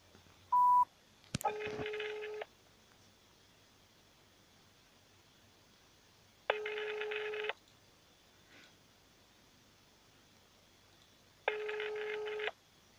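A telephone call to a newspaper office: one short dialling beep and a click, then three ringback tones spaced about five seconds apart, heard faintly over a low hiss with no voices.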